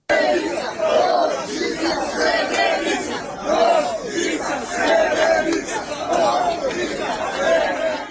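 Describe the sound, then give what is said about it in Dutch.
People in the streets of Serbia chant a short rhythmic phrase together, repeating it many times at an even pace. Massed voices rise on each repetition over a steady background of crowd murmur. “ik wil eerst beginnen met wat geluid waar te horen is dat mensen scanderen op de straten in Servië.”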